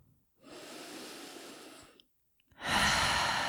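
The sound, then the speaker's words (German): Deep breathing during a guided relaxation exercise: a long, steady breath drawn in, a short pause, then a louder, breathy exhale pushed out through an open mouth. “Nimm hier ein paar tiefere Atemzüge ein und aus. Gern durch den geöffneten Mund ausatmen”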